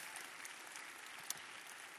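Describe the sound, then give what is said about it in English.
Audience applause for an honored guest at a live event: a dense, steady wash of many hands clapping that holds an even, fairly soft level for the whole stretch, with one sharper single clap standing out near the end and no voices. “Can we give Dr. Kennedy a big hand clap also one more time?”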